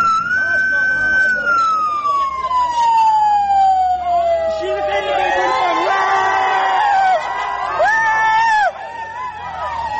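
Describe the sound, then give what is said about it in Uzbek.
A police car siren, on a car surrounded by dozens of people, blares loudly in a long wail sliding down in pitch, then shifts into short yelping bursts as the car speeds off, while a crowd shouts and cheers underneath. “Tasvirlarda o'nlab odam qurshab olgan IIB mashinasining qattiq signal berayotgani, so'ngra mashinaning katta tezlikda haydab ketilgani hamda odamlarning xursandchilik bilan baqirgani eshitiladi.”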